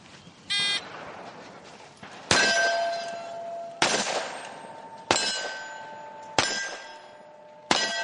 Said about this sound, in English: When hit with hand-loaded ammunition fired out of period or replica weapons, some of the tin targets ring out in a way that's almost musical.